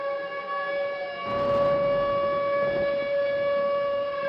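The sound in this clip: A tornado warning siren in the Midwest sounds one steady, sustained wail with strong harmonics and no clear rise or fall in pitch, moderately loud and alone, with a faint rush of noise partway through.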